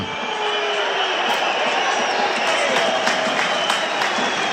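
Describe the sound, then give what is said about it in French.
Rugby crowd rumbling in protest late in a UBB match as a penalty comes, a continuous dense roar with a few sharper bursts scattered through it. “Il rappelle Penaud à l'ordre, semble-t-il. Avec le public qui gronde.”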